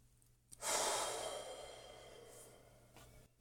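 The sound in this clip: A single deep breath exhaled slowly during a guided breathing exercise: a soft, airy whoosh that swells quickly, then thins and fades gradually over about two and a half seconds, faint and alone.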